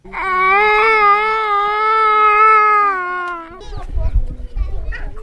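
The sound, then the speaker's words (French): A child wails in a sewage-flooded neighbourhood of Mushasha 1, Gatumba, Mutimbuzi, with a loud, sustained, steady-pitched cry that sags near the end before giving way to low rumbling bustle. “Des enfants pleurent, d'autres jouent dans des flaques d'eau usée.”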